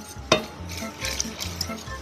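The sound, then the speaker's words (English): Whisking a mixture of warm milk in a pot, with steady, rhythmic scraping strokes and a sharp metallic clink near the start. “Whisk really well. Get into the corners of the pot.”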